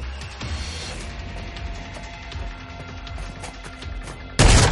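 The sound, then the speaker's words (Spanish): Gunfire and reloading in an action film fight scene, a handgun pressed against a man's chest: a run of sharp clicks and cracks over low rumble, ending in one much louder blast. “Dispara a dos. Apoya el cañón del arma sobre el pecho de un hombre y recarga.”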